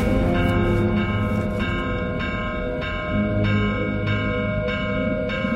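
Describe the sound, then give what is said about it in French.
A village church bell rings the tocsin alarm around midnight on a snowy winter night. Many rapid, evenly spaced strokes ring out, each sounding a bright metallic tone over a sustained, humming resonance. No one speaks. “Vers minuit, l'abbé prévient le maire et lui demande l'autorisation de sonner le tocsin.”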